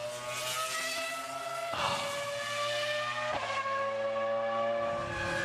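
A racing car driving around the Mugello circuit, its engine giving a fairly faint, sustained high-pitched whine broken by two abrupt shifts in tone, like gear changes.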